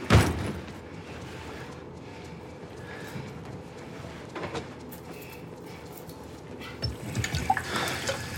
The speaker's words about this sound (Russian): Черноволосый мужчина заходит в уборную. Моется.